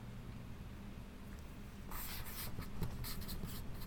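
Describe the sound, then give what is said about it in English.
A quiz answer being written down: after a quiet pause comes faint, scratchy writing in quick short strokes that continues to the end. “Give you a moment to write your answer down.”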